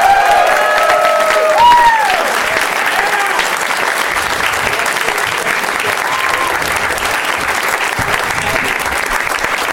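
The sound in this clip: Audience applause and cheering as three guests are welcomed onto the stage of a live show: loud, sustained clapping for about ten seconds, with a few whistles or whoops in the first two seconds before steady applause carries on.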